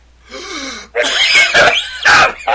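Harsh, throaty coughing to clear out the lungs: a short rasping throat sound, then a run of loud hacking coughs in quick succession, with no talk.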